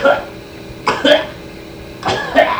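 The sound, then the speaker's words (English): A voice imitates a cat coughing up a hairball: three harsh, throaty hacking bursts, each short and loud, separated by quieter gaps. “and coughed out a hairball”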